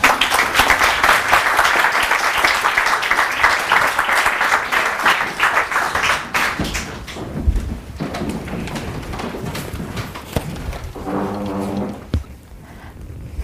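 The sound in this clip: An audience gives loud, sustained applause to welcome a lecturer. The clapping thins and fades after about six seconds, and a voice is briefly heard near the end.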